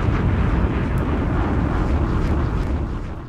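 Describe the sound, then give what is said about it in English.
A bomb explosion sound effect with a deep, rumbling roar that stays heavy and broad, then begins to fade toward the end. “Casino, drop a bomb on him. Listen.”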